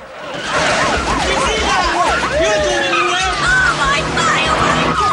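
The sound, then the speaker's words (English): A car speeds down an alleyway and hits a rack of dresses. Loud, continuous engine roar and squealing, skidding tires fill the whole stretch. “They speed down an alleyway, hitting a guy's rack of dresses. Police cars try to follow, but the guy stops them.”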